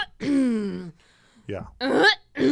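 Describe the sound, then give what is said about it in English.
A voice imitates a man clearing his throat: a drawn-out, buzzing vocal rasp followed by a few shorter, gravelly bursts with brief pauses between them. The sound is fairly loud and carries no words. “No, that's him like clearing his throat and shit.”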